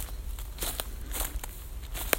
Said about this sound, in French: pendant que je vous parle je suis en train de marcher dans la forêt de Saint-Germain-en-Laye